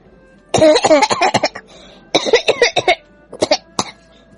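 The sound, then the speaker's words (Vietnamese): A man, a Taoist priest, coughs hard after choking on something he swallowed. The dry, raspy coughs come in several loud clusters of rapid bursts, with short pauses between the fits. “Đạo trưởng bị sặc không ngừng ho khan, tiếng ho khan này còn kèm theo nữ tử cười đùa.”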